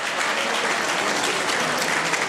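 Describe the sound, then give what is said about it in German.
Applause for a female teacher, a dense, continuous wash of clapping from many hands that holds at an even, fairly loud level throughout. “Ein großer Applaus für die Frau Professor.”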